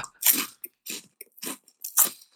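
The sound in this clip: Crunching and chewing a snack of soft, chewy licorice pizza: several short, crisp, noisy bites come in uneven bursts separated by brief pauses, with no talking.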